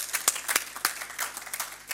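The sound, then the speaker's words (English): Audience applause at a formal book launch, a patter of scattered claps and short sharp peaks running steadily for two seconds, fairly quiet with no voices over it. “Distinguished guests, we might have a round of applause.”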